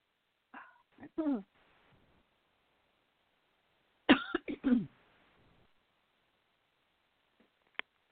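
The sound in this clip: Two people on a phone call cough and clear their throats in two short, rough bursts separated by several seconds of silence, fairly quiet overall.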